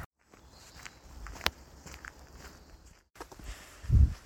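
Footsteps of a tired walker on day four of a trek along Hadrian's Wall: soft, irregular steps, faint and alone, with one sharper tap partway through and a heavier thud near the end.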